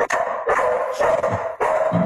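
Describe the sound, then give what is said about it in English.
A dog barks at home as someone comes to the door, giving a quick run of about four loud barks in even succession, each bark short and sharp with no voices over it. “USC Rutgers, and the dog, the underdog, started barking”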